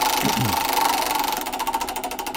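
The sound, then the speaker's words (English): A prize wheel spinning during a quiz game gives off rapid, steady ticking, a clattering run of many clicks that grows sharper and more distinct in its second half. “Let's spin that wheel.”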